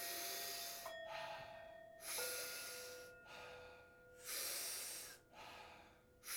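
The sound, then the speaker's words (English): Powerful breathing through the mouth as a breathing exercise, a few cycles of big, full inhales each followed by a softer, relaxed exhale, in a steady rhythm with pauses between breaths. “Big full inhale, soft exhale. It sounds like this.”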